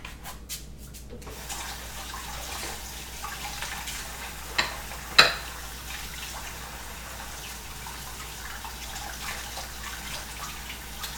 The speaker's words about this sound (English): So I'm just gonna rinse these off